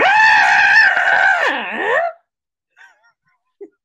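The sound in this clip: A person performs a confused scream: a loud, high, wavering cry lasting about two seconds that bends and dips in pitch before cutting off, followed by two faint short sounds.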